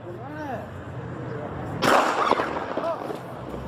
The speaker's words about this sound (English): A woman died after being shot by Fresno police. She held a knife to an innocent bystander.